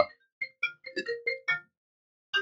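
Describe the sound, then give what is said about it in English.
A phone ringtone cuts in as a quick run of short, bright electronic notes. The tune is fairly quiet, pauses briefly, then starts again. “rudely interrupted by a phone call”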